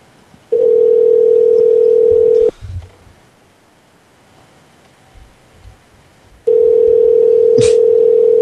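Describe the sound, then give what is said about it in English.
Telephone ringback tone on an unanswered call: two steady, buzzing rings of about two seconds each, separated by roughly four seconds of near silence with a faint click after the first ring. “Maybe we're blocked. Yeah, maybe we're blocked. So it just rings. I just hung up.”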